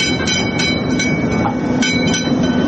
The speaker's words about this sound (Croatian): Sarajevskim ulicama provozila se i replika prvog električnog tramvaja.